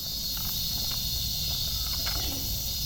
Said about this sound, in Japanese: これぐらいの気温だとこういうセミの声も全然暑苦しくないんですけどね、なんとなく夏の終わりを感じる、そんなセミの声です。